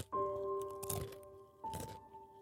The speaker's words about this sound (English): He popped a Monster Munch into his mouth, so stale it barely crunched.